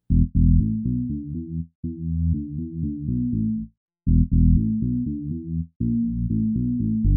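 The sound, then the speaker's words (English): Deep synth bass from a Nord Bass preset, low-passed steeply to a very dark tone, plays busy rhythmic note patterns in repeated phrases separated by brief silences, loud and alone. “The synth bass is a Logic preset called Nord Bass. I did a low pass on it at 255 Hz, 48 dB octave cut, and a 0.71 Q on the EQ. Yes, I was going for a very deep low.”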